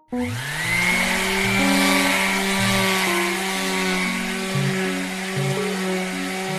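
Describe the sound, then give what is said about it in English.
Electric sander switching on: the motor whine rises sharply in pitch as it spins up, then settles into a loud, steady buzzing drone with a few slight wavers, heard alone. “Does that scare you? Probably not. It's just an electric sander, and that doesn't really measure on the fear meter for most people.”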